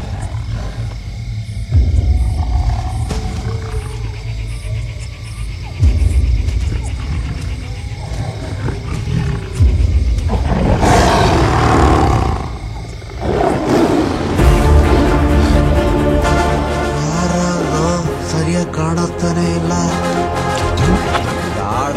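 A tiger roars in a forest area, caught by a night-vision camera set up to track tigers. Loud, rough roars and growls rise and swell over a sustained rumble.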